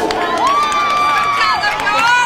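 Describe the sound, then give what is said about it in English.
Crowd cheering and shouting at a baseball game as Hornets players spill out of the dugout to cheer on a teammate, a steady mass of voices with one long, sustained held call rising above it. “I love seeing this from the Hornets every time they come out. It's a SAG month that they're everybody's coming out of the dugout. They're cheering. They're cheering them on.”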